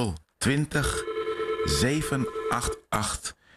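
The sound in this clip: A telephone rings with an incoming call to a studio call-in line, a steady electronic tone under voices and other harmonic sounds that stop and start throughout.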